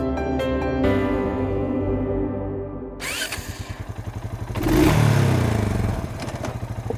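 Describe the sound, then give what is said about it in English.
ATV engine while riding through winter woods in Western Illinois: a steady tonal engine hum gives way to a rougher, rapidly pulsing rattle, then a louder revving surge before settling back into the chugging drive. “This is the sound of me, bundled up in my winter coat in the woods of Western Illinois, riding on an ATV”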